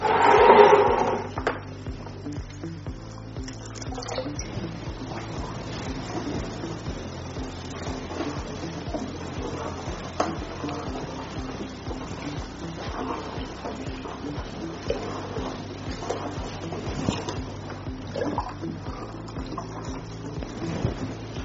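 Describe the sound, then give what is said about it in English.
Stirring a thick liquid mixture thickened with industrial salt gives a steady, dense scraping and sloshing texture throughout. A louder burst opens it, and a low hum runs beneath. “Takes a lot of energy stirring, but that's the beauty of it”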